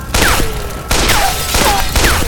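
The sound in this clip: Pistol shots fired repeatedly in a gunfight, loud and dense. A few distinct falling ricochet whines cut through the continuous gunfire, with no talk.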